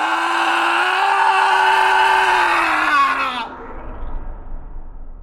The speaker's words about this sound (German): Und in diesem Moment gelang es dem Schrei, sich zu befreien.